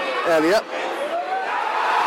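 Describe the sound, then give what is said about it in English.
A football crowd howls as the ball runs through towards the goalkeeper during a Reading match: a dense, steady roar of many voices, swelling briefly into a louder cry near the start. “Crowd howling. I don't think the goalkeeper left the area there as that ball went through. The crowd howling for it.”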